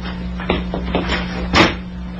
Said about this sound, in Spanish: El muchacho sale de la habitación usando la misma puerta que le diera acceso.